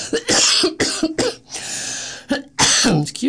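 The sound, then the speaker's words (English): A tickle in the throat sets off a few sharp, loud coughs in quick bursts, with some rough throat clearing between them and no talking. “excuse me, I got a tickle in my throat.”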